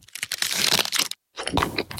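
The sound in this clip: Crisp crunching of a bite into a mint Aero chocolate bar, two bursts of crackling separated by a short silent pause.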